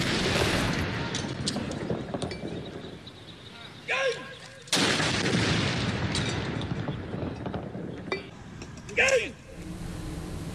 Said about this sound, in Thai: กองทัพอากาศโดยกรมทหารต่อสู้อากาศยานรักษาพระองค์โดยบัญชาการอากาศโยธินยิงสลุดหลวงณอุทยานการบินกองทัพอากาศเขตสายไหมกรุงเทพมหานคร